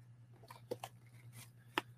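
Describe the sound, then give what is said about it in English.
Scissors cutting open a plastic fishing bait package: a few crisp snips and crinkles, faint, over a steady low hum. “Use our arsenal scissors to get this open.”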